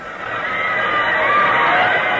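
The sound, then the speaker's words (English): A crowd cheering the Yale team at a match swells into a dense, steady roar for about two seconds, with no single voice standing out. “Dear me, what's happened? They're cheering the Yale team.”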